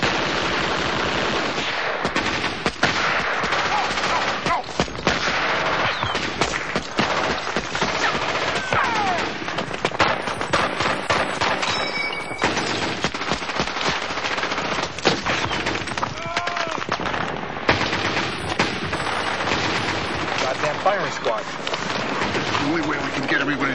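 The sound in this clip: Sustained heavy gunfire lays down covering fire in a war film battle scene, with dense, rapid bursts of machine-gun and rifle shots crackling without a break throughout.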